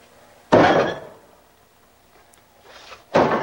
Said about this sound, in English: Tossing a dish towel into the sink, he goes to the cupboard and swings open the door.